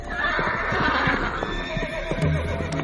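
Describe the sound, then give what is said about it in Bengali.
Hoofbeats of two horses pulling a carriage, with a busy clip-clop rhythm and a horse's whinny rising out of the hooves. “ঘোড়া দুটো এবার যেন উন্মাত্ত পাগলের মতো, তাদের বেগ বাড়তে লাগল।”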